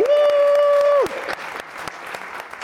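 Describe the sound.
A live crowd applauds the host of a show at the House of Culture in Salt Lake City during All-Star Weekend 2023. A steady held tone cuts off, and moderate, scattered clapping continues.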